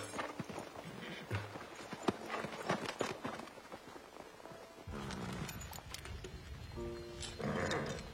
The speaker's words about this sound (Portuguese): Leve o cavalo para o estábulo e venha comer.